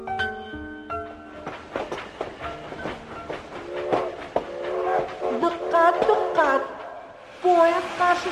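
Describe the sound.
A Qarshi–Tashkent train arrives and stops at track four of a station platform. Rattling, clattering rail noise mixes with sustained tonal whistle-like sounds, and voices are heard among the train sounds.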